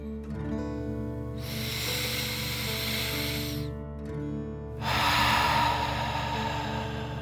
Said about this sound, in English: Fill up your chest and belly. Deep breath in and out.